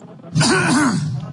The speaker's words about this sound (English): Cover your cough with your elbow like this.